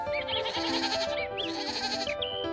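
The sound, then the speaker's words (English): Goats bleating at pasture: a few wavering, nasal calls follow one another over a steady background of bleating, with no talk. “Heidi enjoyed each day by going to pasture with Peter and goats.”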